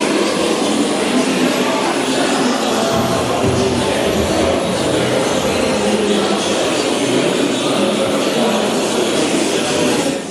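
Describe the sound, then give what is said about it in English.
A dense, loud wash of static and noise from many radios playing at once, each tuned to a random point, in a hall of a London modern art museum exhibit. It stays continuous and unbroken for about ten seconds. “That's all, every single radio, I mean, theoretically anyway, every single radio tuned to some kind of random point.”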